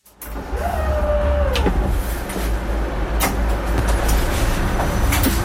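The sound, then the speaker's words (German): A partly automated narrow-gauge train runs along a Swiss regional line. A steady low rumble continues throughout, a thin electric whine drops in pitch early on, and a few sharp clicks and clatters cut through. “Wir sitzen im Waldenburgerli, auf der Strecke zwischen Liestal und Waldenburg.”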